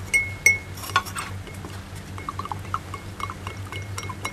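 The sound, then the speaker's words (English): Clinking and stirring as a utensil mixes a urine mixture in a container, the liquid having been chilled in ice; a few bright clinks open, then softer scattered taps and splashes over a steady low hum. “So I'm going to add a little bit and then you stir it.”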